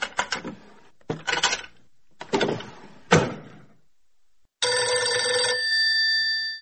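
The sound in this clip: Telephone bell ringing in one bright, sustained, harmonic burst of about two seconds, following several sharp clattering knocks or bangs.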